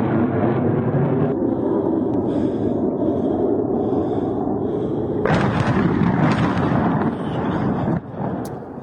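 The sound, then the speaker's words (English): Airstrike explosions hit the town of Zhytomyr in central Ukraine, with a power plant and a civilian building struck. The blasts come as a loud, continuous, heavy rumbling roar that turns harsher and brighter about halfway through, then drops slightly near the end. “Brand new video shows an airstrike on the town of Zhytomyr in central Ukraine.”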